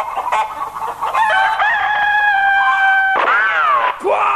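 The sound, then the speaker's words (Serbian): A chicken squawks and then crows loudly, its harsh, strongly harmonic calls repeating with shifting pitch and carrying clearly with no talk. “Quiet! Stupid bird!”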